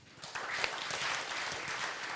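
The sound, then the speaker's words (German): Applause from an audience welcoming a professor to a panel discussion on job satisfaction, fairly quiet, swelling in after a brief moment and then continuing as an even patter of many clapping hands. “Einen großen Applaus auch für Professor Franz Josef Rose.”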